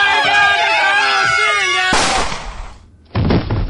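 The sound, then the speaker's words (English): A single sharp gunshot bursts out after a loud stretch of voices, its noisy tail fading away before another harsh burst of noise near the end. “Oh, my God, you shot Jacob!”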